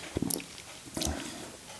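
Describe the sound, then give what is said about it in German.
A sip of coffee: two brief, quiet, wet mouth sounds separated by a pause of just under a second, with no talking. “erstmal einen Schluck Kaffee noch.”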